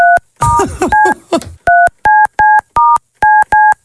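Telephone touch-tone dialing to call someone back: a rapid run of many short, clean keypad beeps in an uneven rhythm, the first few overlapping a noisy clatter.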